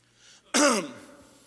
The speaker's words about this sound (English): Cleared his throat, and then he's like,